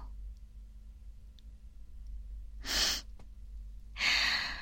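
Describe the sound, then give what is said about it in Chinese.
Deep human breathing, with two long, airy, noisy breaths heard alone over a low, steady hum. “再来几次，吸气，呼气，”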